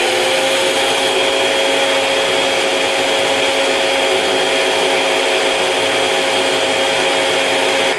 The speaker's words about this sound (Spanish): Y ahora nuevamente la vamos a batir hasta que todo quede uniformemente licuado.